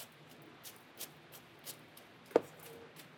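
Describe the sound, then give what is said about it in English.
A knife chops green onions thinly on a board, a few faint, evenly spaced taps followed by one sharper, louder chop. “This is how I'd cut green onions, okay? I cut it like that, and then I get rid of these, and then I'd go.”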